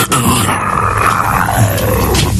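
A person imitates a tiger's roar with one long, loud, gravelly growl that runs unbroken through the whole clip.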